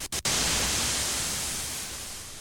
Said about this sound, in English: Most classic studios also have generators to create square waves and white noise.